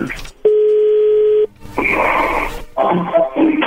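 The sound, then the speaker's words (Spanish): A telephone being redialed: a flat, steady tone sounds for about a second, then stops, followed by stretches of crackling, muffled line sound. “¿Puedes marcar de vuelta? Sí, le están marcando de nuevo.”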